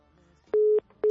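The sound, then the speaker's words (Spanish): Telephone busy tone after a call cuts off: two steady mid-pitched beeps, the first longer and the second cut short at the end, following a faint low murmur. “Algo pasa, o sea, justo cuando apenas la agarro, corta la llamada.”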